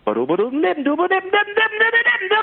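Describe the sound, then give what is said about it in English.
A voice scats in imitation of a saxophone, firing quick, punchy syllables whose pitch climbs through the first half-second, then settles into a higher run of clipped, bright notes. “Scatting is really, it's just making the sound or imitating the sound of an instrument with your voice. So, like, if you're trying to do something that a saxophone would play with your voice, it might sound like,”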